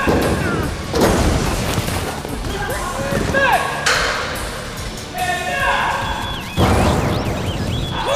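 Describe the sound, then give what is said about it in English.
Gunshots fire during an action stunt scene: several loud booming blasts with ringing, pinging tails, spaced seconds apart, mixed with clatter and talking voices. “And she fires. Boom.”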